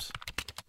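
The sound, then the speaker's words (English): Typing on a computer keyboard while entering a search-engine query: a quick burst of several soft, evenly spaced keystroke clicks in under a second. “That sound you hear is me typing the phrase "most popular New Year's resolutions" into a search engine.”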